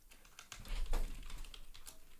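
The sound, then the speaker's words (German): Rapid typing on a computer keyboard while writing a message, a short burst of quick, crisp key clicks with no talk over it. “ich muss kurz Marki was schreiben”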